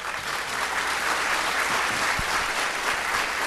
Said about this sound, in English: so big round of applause for Andrea Suarez